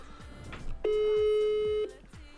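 Telephone ringing tone while dialing a call from a radio studio: one steady tone lasting about a second, over faint background sounds.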